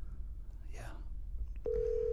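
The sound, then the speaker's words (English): A telephone being dialed to place a call: a low, murmuring line hum, then a steady, unbroken tone that starts partway through and holds to the end. “I hate it when you call somebody, they don't answer, and then you don't know if you're supposed to call them, they're supposed to call you.”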